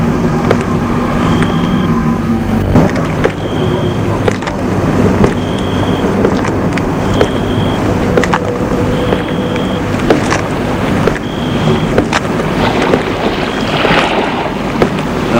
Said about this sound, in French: Bruit de la mer.